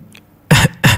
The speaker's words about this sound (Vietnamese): Ho khan vài tiếng, phun ra vài ngụm máu tươi, Quỷ Cốc Tử